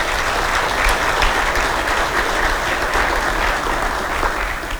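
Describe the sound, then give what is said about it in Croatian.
Audience applause in the Croatian Parliament for student winners of a quiz about the parliament and participants in a mock session, a dense, steady burst of clapping that holds for about five seconds before easing off. “učenike kojima su saborske klupe itekako poznate, pobjednike kviza Koliko poznaješ Hrvatski sabor i sudionike simulirane sjednice Hrvatskoga sabora. Molim jedan pljesak za njih.”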